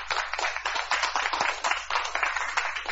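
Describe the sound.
Applause for a Catholic choir: many quick hand claps in a steady, fairly faint patter with small swells, and no talking.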